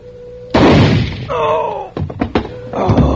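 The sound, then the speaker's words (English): A gunshot goes off in a radio drama as one loud, sharp bang, followed by a voice crying out and a few quicker knocks. “The gun went off. My chest.”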